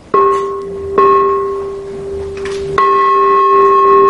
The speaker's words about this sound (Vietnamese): Mà 3 tiếng chuông thật là khoan thai. Cho nên chuông mà tụng kinh, thí dụ mình thỉnh chuông cho Phật tử lễ Phật á,